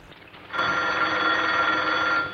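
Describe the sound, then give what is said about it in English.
A telephone bell rings in a household, one loud, steady, continuous ring that begins after a brief moment of quiet and holds to the end. “A maid answers the phone for her.”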